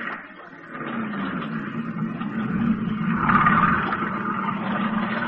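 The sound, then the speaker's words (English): Motorboat engine starting up: a low, even drone that swells gradually in loudness toward the middle, then holds as a steady running hum to the end. “Get into the boat. Okay. You're steering. Go ahead, start it up.”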